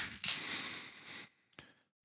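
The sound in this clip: A Duplo chocolate bar is being unwrapped. Its wrapper gives a long, bright crackling crinkle, then a pause, then two short crinkles near the end.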